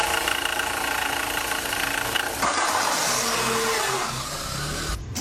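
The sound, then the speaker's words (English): A faulty car engine makes a loud, continuous mechanical drone with a grinding, rattling edge. Its tone shifts partway through, and it cuts off abruptly near the end. “you might have only been driving it for a few weeks and you heard a sound like this?”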